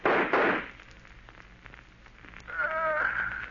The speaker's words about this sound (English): If you will shoot, I will. I'll get him even if I can't see him.